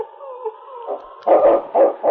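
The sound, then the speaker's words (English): A large dog barks sharply while tracking a scent along a trail. A thin whining tone at the start gives way to a few harsh, loud barks in quick succession. “The great dog circled back and forth across the trail. Finally, he paused and gave a sharp bark.”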